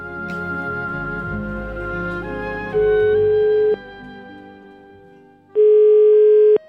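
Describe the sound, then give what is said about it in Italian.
Ringback tone of an outgoing telephone call: two long, steady beeps of about a second each with a pause between them, coming in as music fades out underneath. “a proposito di Corleone, i due figuri qui presenti hanno chiamato Irina di Corleone”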